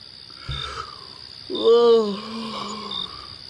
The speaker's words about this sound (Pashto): په دې هلک بیا څه شوي چې نالښتونه کوي خوب زنم نه پرېږدي